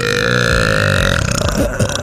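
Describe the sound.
A long, loud burp, starting as a sustained tonal belch and breaking into rough, sputtering pulses toward the end.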